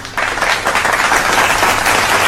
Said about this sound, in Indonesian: Tepuk tangan.